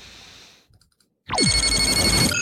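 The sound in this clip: An electronic ringtone signals an incoming hail. A few soft ticks come first, then a loud downward swoop opens into bright, layered sustained tones.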